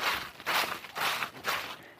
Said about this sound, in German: Aber hier liegen auch ganz viele Kastanienblätter auf dem Boden, durch die ich so hindurchrascheln kann.